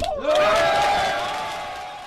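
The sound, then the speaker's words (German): Cheering from rescued people aboard the Alan Kurdi rescue ship: a loud, sustained shout that dips in pitch, then holds steady and gradually fades. “Der Jubel auf der Alan Kurdi war groß, das sieht man in dem Video, das die deutsche Organisation veröffentlicht hat.”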